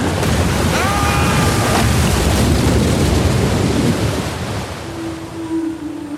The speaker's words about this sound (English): We can't! The storm is too strong!